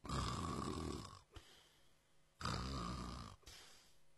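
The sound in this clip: An old man's snoring as he sleeps drunk under a roadside tree, voiced as an imitation: two long, rasping, rattling snores with a quieter breath between them.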